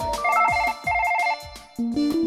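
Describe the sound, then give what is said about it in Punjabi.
A phone rings with an incoming call: a loud electronic ringtone in repeating bursts of rapid beeping tones, separated by short pauses, ending with a stepped series of rising notes. “ਇੱਕ ਕੁੜੀ ਆ ਬਾਰ ਬਾਰ phone ਕਰਦੀ ਆ, hello ਕਹਿ ਦਿੰਦੀ ਪਰ ਅੱਗੋਂ ਗੱਲ ਨਹੀਂ ਕਰਦੀ। ਲੈ ਫੇਰ ਫੋਨ ਆ ਗਿਆ।”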